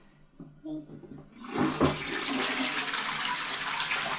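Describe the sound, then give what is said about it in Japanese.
A toilet flushes after a quiet start, breaking into a sudden loud rush of water that settles into a steady gurgling flow until the end. “ママがおしっこしてるとこ想像してくれたら嬉しいなって思います。じゃあちょっと流しますよ。音うるさいですよ。”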